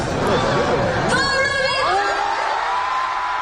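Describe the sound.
A concert crowd in Rio cheers loudly for the singer, a dense, steady roar of shouts, whoops and high cheering that holds at full strength throughout.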